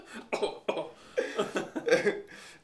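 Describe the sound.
A voice imitates coughing, as if choking on smoke rings blown in the face: a series of several rough, throaty bursts in an uneven rhythm, faint and raspy.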